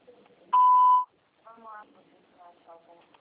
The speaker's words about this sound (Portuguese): Por favor, deixe sua mensagem após o sinal. Ao finalizar, desligue ou tecle asterisco para outras opções.